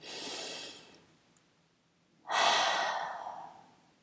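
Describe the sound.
One deep breath through the mouth: a steady airy inhale, a short pause, then a louder, breathy open-mouthed exhale that gradually fades.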